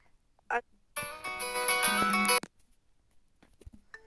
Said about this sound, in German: Kurzen Cut, ich werde angerufen.